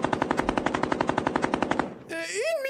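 Machine gun fire in a rapid, evenly spaced burst of many loud shots that cuts off abruptly, followed by a wavering, sliding high tone.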